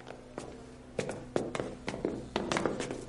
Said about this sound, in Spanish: John se pone su gorra y se marcha ofendido.